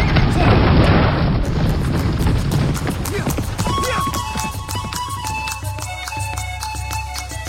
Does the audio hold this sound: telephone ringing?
no